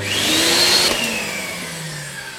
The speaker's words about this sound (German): Jetzt werde ich hier nochmal ganz kurz saugen.